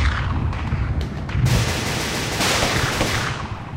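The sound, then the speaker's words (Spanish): Gunfire during a battle: a dense, continuous roar of shots and booming blasts with no clear gaps, loud from start to finish. “Vamos soldados, sigan disparando.”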